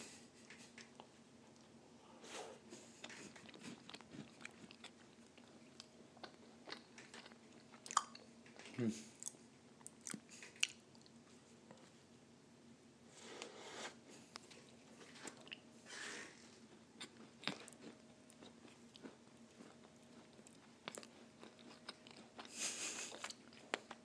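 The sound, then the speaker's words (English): Chewing and biting into a giant cookie: many soft, crunchy bites and moist chewing noises come in an irregular rhythm, faint throughout. “Eating a cookie live on audio, boom.”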